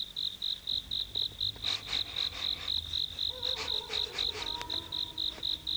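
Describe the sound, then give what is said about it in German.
A cricket chirps nearby on a warm summer night: many evenly spaced, high-pitched pulses in a steady rhythm, faint and alone with no talk. “Die Nacht war sommerlich warm. Ganz in der Nähe zirpte eine Grille.”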